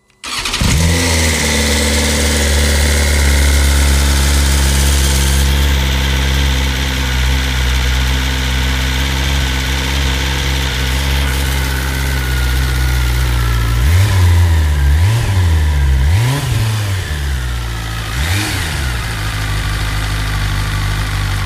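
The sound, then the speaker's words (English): A four-cylinder S1000RR sport motorcycle engine starts and idles with a steady, smooth hum, then revs several times in sharp rising and falling swells before settling back to idle, loud and alone. “Four cylinders, incredible power and precision, and a bike to own the racetrack on. That'll be the awe-inspiring S1000RR then.”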